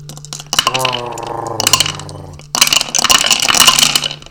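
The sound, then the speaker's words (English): Dice dropped down a dice tower during a tabletop game session: talk first, then a sudden loud burst of rattling, tumbling clatter that fills the second half. “You have to delicately drop all these dice down the dice tower.”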